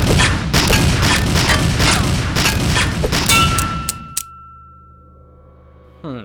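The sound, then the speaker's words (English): Gunfire with bullets clanging off a metal shovel: a dense run of loud, rapid bursts, then a sustained metallic ringing tone that trails on after the shots stop. A short final noise follows. “You blocked those bullets with your shovel.”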